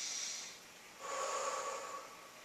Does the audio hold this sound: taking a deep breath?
yes